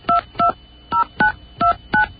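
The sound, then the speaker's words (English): Telephone keypad dialing part of a ten-digit number: six DTMF tones, each a short, even two-note beep, sounding alone in an uneven rhythm with brief pauses between them. “Let's see if we can dial 10-digit number.”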